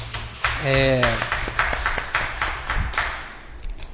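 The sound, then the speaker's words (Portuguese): Brief, scattered clapping in a council chamber comes from a small group as quick, light claps, while a voice talks at the start. “Aplausinho.”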